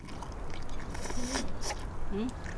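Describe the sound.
Soft chewing and biting as someone eats dalu noodles, wheat noodles in a thick savoury gravy, faint and steady against a noisy background.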